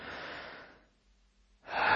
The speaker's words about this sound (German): Erlaube deinen Augen, sich zu schließen und nimm dir ein paar tiefe Atemzüge. Einatmen